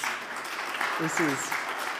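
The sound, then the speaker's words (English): Audience applause welcomes a guest to the stage at a talk, a steady round of clapping at moderate level with a brief voice heard partway through. “round of applause for Lizzie.”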